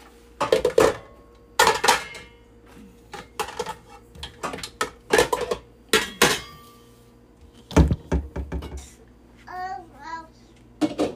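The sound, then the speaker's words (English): Mashed potatoes go into a serving bowl at a family Thanksgiving: a few sharp clinks and knocks of a spoon against dishes, spaced irregularly, with a child's voice near the end. “I guess I should put the mashed potatoes in a nice bowl too, huh?”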